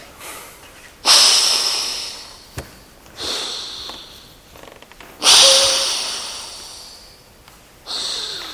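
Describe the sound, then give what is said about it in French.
Forceful nasal exhalations with the mouth closed, done as a breathing exercise while raising an elbow from a firm standing stance. Four loud, breathy hissing bursts stand out, with quieter puffs between them and no talking. “Et puis vous allez faire quelques expirations, et lever le coude sur une expiration, bouche fermée, c'est par le nez.”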